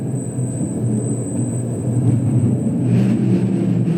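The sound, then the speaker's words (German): A mine train rides through a low, egg-shaped tunnel in the Berchtesgaden salt mine, giving a steady low rumble that swells slightly toward the end, with a constant thin high whine above it. “Wir fahren durch den niedrigen Stollen. Aufstehen von der Bahn ist nicht drin.”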